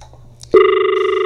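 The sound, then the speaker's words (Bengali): A telephone rings, starting abruptly after a brief low murmur and holding as a steady, buzzy electronic tone with a faint pulsing flutter. “না ফোনটি কেটে গেল।”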